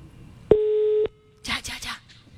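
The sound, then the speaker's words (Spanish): Telephone call tone for a number that cannot be found: one steady, mid-pitched electronic tone of about half a second, followed after a brief pause by a voice speaking. “Va, está llamando. Ay, ¿qué dice? Número no encontrado.”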